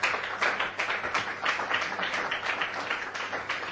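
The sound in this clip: An audience claps for a girl after hearing her story, a dense, steady wash of many hands that holds at an even loudness for the whole stretch, with no voices rising above it.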